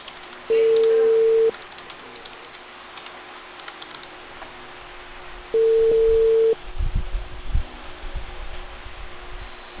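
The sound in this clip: Ringback tone of a telephone call going unanswered: two long, steady electronic tones about four seconds apart with silence between them, followed by low rumbling noise.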